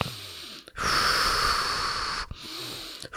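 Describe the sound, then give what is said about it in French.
Deep breathing during a relaxation exercise. One long, airy breath takes up most of the span, with shorter, softer breaths before and after it. “Nous terminons l'exercice. Nous respirons plusieurs fois profondément.”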